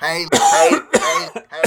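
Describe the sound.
Someone clears their throat with a few harsh, rasping bursts broken by short gaps, mixed with rough voiced sound.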